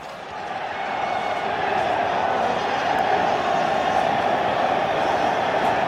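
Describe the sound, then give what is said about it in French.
A stadium crowd calling for Diego Maradona, heard from the press room set just beneath the stands: a dense, continuous roar that swells over the first second, then holds steady and loud. “La pièce est située juste sous les gradins et le public réclame son nouveau héros.”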